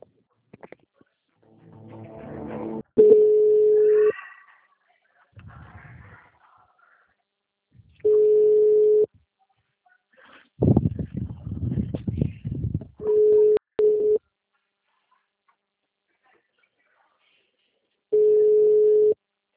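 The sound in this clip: Telephone line tone while a bank call is being transferred: four steady, mid-pitched tones, each about a second long and spaced several seconds apart, with brief muffled voices and noise in some of the gaps.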